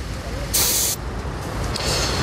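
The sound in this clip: Air hisses from a gauge during a tyre pressure check on the driver's side of a car at a roadside stop. A loud, sharp burst comes first, then a fainter, longer hiss later, over a low steady rumble.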